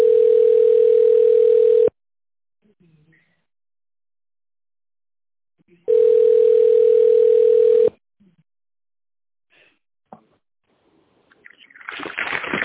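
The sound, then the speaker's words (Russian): Telephone ringback tone while a call connects: two long, steady buzzing tones of about two seconds each, separated by silence, then faint clicks and rising line noise. “Please wait while we connect your call.”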